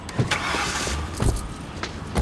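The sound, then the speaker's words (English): A police car drives off with a steady rush of engine and road noise, broken by a few faint knocks and clicks. “then driven off in a police car”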